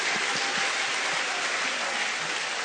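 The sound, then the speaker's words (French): Applause from an audience during a French and English church service, a dense, continuous wash of many hands clapping at a steady, fairly loud level with no break. “Acclamez-vous. Put your hands together for yourself.”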